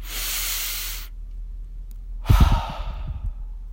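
Deep breathing: a long, airy hissing inhale, a pause of silence, then a loud, rough exhale that trails off, with no talking.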